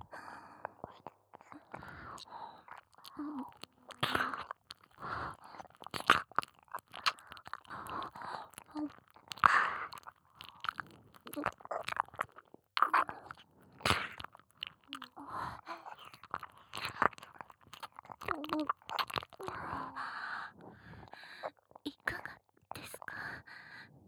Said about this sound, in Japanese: お耳をたっぷり舐めさせていただきます